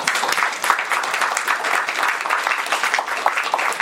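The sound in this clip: Audience applause welcomes congressional speakers at an environmental and energy policy event, brisk even clapping from a fair-sized crowd that stays steady throughout.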